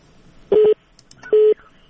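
Two telephone line tones as a caller is connected to a call-in line, each a steady mid-pitched beep lasting about a fifth of a second, with a short quiet gap between them over faint line noise.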